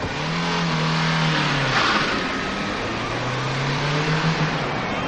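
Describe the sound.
A car engine revs hard as the car starts off and speeds away. The loud, continuous drone climbs, dips briefly and climbs again as it accelerates.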